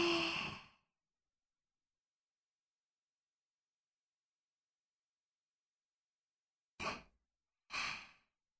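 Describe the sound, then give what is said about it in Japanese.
Deep breathing during a guided relaxation exercise: one breath at the start, then a long silence, then two more short breaths in close succession, each soft and airy. “さて、深呼吸をしたところで、”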